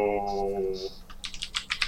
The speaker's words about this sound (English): sorry for the clicking.